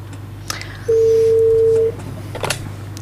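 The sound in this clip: Telephone dialing a call: a single steady electronic tone of about one second, with a few faint clicks before and after.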